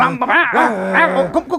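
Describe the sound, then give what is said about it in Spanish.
An angry dog growling: a run of harsh, voiced snarls and yips whose pitch repeatedly swells up and drops back, loud and close together, with short gaps near the end. “Mira, el perrito está muy rabioso.”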